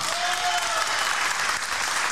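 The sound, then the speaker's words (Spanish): Audience applause, a continuous dense patter of many hands clapping at a steady level for the whole stretch. “El vino y la Coca-Cola, aplauso. Aplaudan.”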